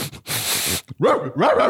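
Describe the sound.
A person's voice imitates a drug-sniffing dog barking: a breathy huff, then two bursts of quick, yappy, throaty barks with bending pitch.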